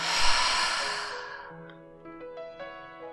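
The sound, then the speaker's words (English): A long, audible exhale through the mouth after a deep breath in through the nose, during a guided relaxation exercise. It is a breathy sigh that starts strong and fades steadily over about three seconds. “Take in a deep inhale through your nose and a long verbal exhale through your mouth.”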